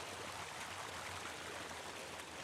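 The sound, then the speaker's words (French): The river Audet in Brittany flows with a soft, steady rushing and gurgling, faint and unbroken throughout. “Roy écoute le flux de l'Audet qui, depuis le centre-Bretagne, coule jusqu'à la mer.”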